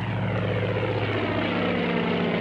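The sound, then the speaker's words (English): Propeller airplane engine roaring as the plane takes off from a runway: a loud, steady, continuous drone with a deep low hum and no break throughout. “Slim stepped back from the runway as the plane took off.”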